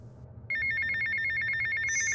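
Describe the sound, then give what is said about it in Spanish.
A mobile phone rings inside a bag after a brief quiet moment. Its electronic ringtone is a fast, steadily repeating trill of bright tones, fairly soft and heard alone. “El celular en mi bolsa empezó a sonar.”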